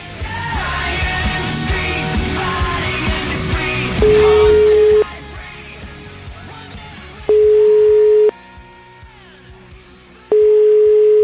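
A telephone line tone pulses while a call is being placed. Three steady one-second beeps come at a regular interval after a few seconds of busier, louder background sound, and the last beep is cut short.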